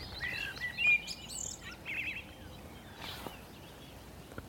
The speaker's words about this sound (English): there's a blackbird just sitting obligingly on, out on a branch singing for us.